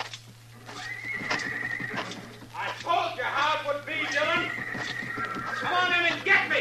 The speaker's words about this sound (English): Look, he's trying to ride the horse out.